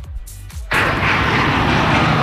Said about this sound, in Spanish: ¿Podemos irnos hasta Barcelona? Venga, pues aterrizamos en el Prat.